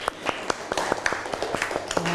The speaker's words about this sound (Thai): ปรบมือเพื่อนหน่อยเร็ว